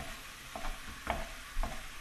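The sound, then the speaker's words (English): A spatula stabs at and breaks up ground beef in a sizzling pan, with three scraping strokes rising above a steady frying hiss. “We're just stabbing at it with the spatula. Yeah, just to break it up so it's not in its big little brick.”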